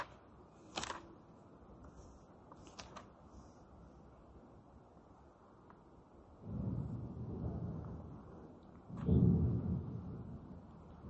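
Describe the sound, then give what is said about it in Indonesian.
Thunder rumbles in two low, heavy rolls, the second louder than the first, preceded by a few faint sharp clicks over quiet background noise. “Gledek.”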